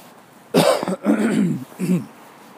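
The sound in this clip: A person coughs in a short run of harsh, throaty bursts, with brief gaps between them and no talk over them.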